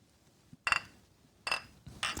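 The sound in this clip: Glasses clink together in a toast: a few bright, ringing clinks in short separate bursts over quiet background.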